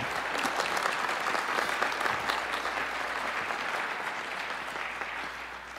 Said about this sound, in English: Can we welcome Moses for us?